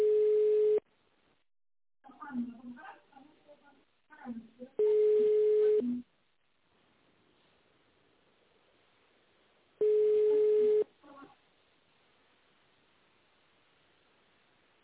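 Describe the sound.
A telephone ringback tone plays while a call is forwarded to an operator: three long, steady, low beeps spaced several seconds apart. A recorded voice speaks between the first two tones.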